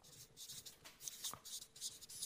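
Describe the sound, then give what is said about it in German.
A pen scratches out a single German word by hand in a few quick, faint strokes with short pauses between them. The scratching is soft and papery, and no voices are heard. “Also ich schreibe mal Zuneigung.”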